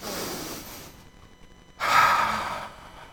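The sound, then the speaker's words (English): A single big, deep breath, a breathy rush that swells abruptly and then tapers off over about a second. Softer breathing noise comes before it, and no one talks. “Big deep breath.”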